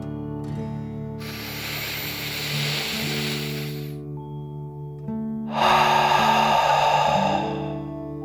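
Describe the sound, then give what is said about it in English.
A slow, deep breath in and out, taken as a calming dragon breath during a children's relaxation exercise. A long airy inhale is followed by a louder, rougher exhale, both over soft sustained background music. “You feel safe and warm as you take one more deep dragon breath in and out.”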